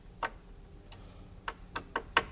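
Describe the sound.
A hand tool tightens loose hinges with a few faint, sharp clicks. The ticks come at irregular intervals, clustering more closely toward the end, over quiet background noise.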